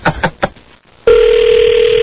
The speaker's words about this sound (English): Extra dollar says she doesn't answer the phone.